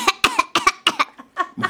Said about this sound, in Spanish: Formas de toser.